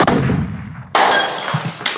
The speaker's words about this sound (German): Das flog dann durch die Scheibe, über den Hof, durch noch eine Scheibe und schließlich... in die Suppe vom Hausmeister.